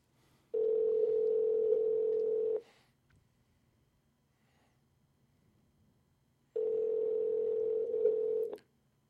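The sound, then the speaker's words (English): Ringback tone on an outgoing telephone call: two long, steady mid-pitched rings of about two seconds each, separated by a roughly four-second silent pause, with no voices. “No, two rings. One ring-a-ding. She probably knows I'm calling.”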